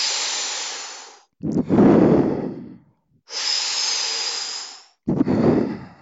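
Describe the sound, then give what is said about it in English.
Deep breaths drawn in through the mouth and let out without force, as a breathing exercise: two cycles, each a long airy hiss of inhalation followed by a lower, rougher, relaxed exhale, loud and alone. “deep shallow breaths in through the mouth as such. And then you just breathe out normally. Don't push out the breath, just let it go out normally. So it sounds like this.”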